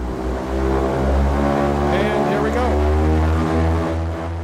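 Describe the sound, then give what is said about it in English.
Engine drone of a helium-filled blimp as the throttle is opened, heard from the small gondola at an airport mooring mast. A loud, steady, low harmonic hum with slight wavering holds throughout. “The ground crew unclips us from the mooring mast, and Terry opens up the throttle.”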